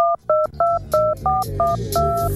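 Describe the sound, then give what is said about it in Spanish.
Touch-tone keypad beeps as a telephone number is dialed: seven short, two-tone electronic tones in a quick, slightly uneven rhythm, clear and prominent over a low, murky background. “Esa llamada se produce el 3 de enero, justo una semana después del secuestro. Los secuestradores llaman a la casa de Julio Iglesias en Miami y al domicilio del secuestrado”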